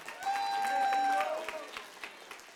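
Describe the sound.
A church audience claps and calls out in praise during a worship service. The applause is fairly soft and thins out toward the end, with a voice speaking over it.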